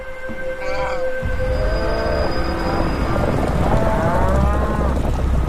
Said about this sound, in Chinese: 每年都有数以百万计的角马必须涉水渡河，才能抵达更茂盛的牧场。